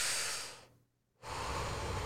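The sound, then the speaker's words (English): Someone takes a deep, noisy breath in and lets it out, producing two long, loud, airy rushes of breath separated by a brief silent pause. “I want you to take a deep breath. Do it with me.”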